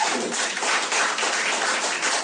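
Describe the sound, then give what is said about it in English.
Comedy-show audience members from the Middle East clap on cue, a handful of hands making a brief, bright wash of steady clapping at moderate loudness with no talk over it. “Any other Arabs? Clap if you're from the Middle East.”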